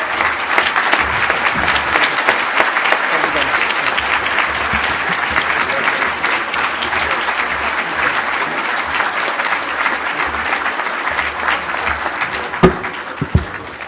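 A warm round of audience applause greets an award recipient at a Bay Planning Coalition award presentation, dense sustained clapping at a steady level for about fourteen seconds, with a few louder claps near the end.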